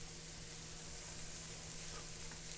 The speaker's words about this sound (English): my tofu that's cooked with mushrooms. Yeah, it smells great.